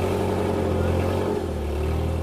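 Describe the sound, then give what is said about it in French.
A bus drives into the grounds of an airport with a steady, loud, low engine rumble and continuous hum, easing slightly partway through. “Le bus pénètre enfin dans l'enceinte de l'aéroport, mais nous ne sommes pas autorisés à le suivre.”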